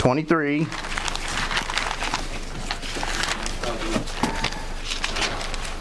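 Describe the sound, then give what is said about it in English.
Many book pages turning at once as an audience looks up a passage: a steady stream of crisp, papery rustles and crinkles, with murmuring voices underneath. “I love the sound of pages turning.”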